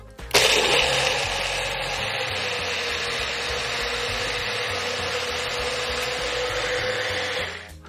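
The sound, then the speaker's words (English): A blender whirs as it purees nuts until the little bits disappear. The motor kicks in abruptly, runs at a loud, steady, high whirring pitch for several seconds, then winds down at the end. “And what we're looking for when we're blending is to see the little bits of nut disappear.”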